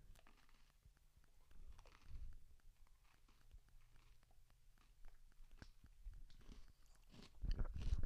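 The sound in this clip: Someone chewing a Nutella-flavoured snack: faint soft crunches and moist chewing clicks in an irregular run, which grow louder toward the end.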